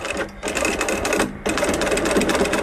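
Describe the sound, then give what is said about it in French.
Sewing machine stitching a thick strap with a quick-release clip using heavy thread, a loud, fast, steady mechanical whirr interrupted by two brief pauses before it runs on. “Là, actuellement, je suis en train de coudre une sangle avec une accroche rapide. Le fil, il est assez épais.”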